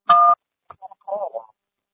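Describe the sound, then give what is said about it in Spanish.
A voicemail beep sounds before a message is recorded: a single short, clear tone, followed by a voice that starts speaking. “Después del tono, grabe su mensaje, marque lo teclado cuando termine.”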